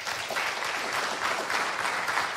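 An audience claps in response at an event about bullying, a dense, steady wash of many hands clapping together, moderately loud and unbroken, with no talk over it.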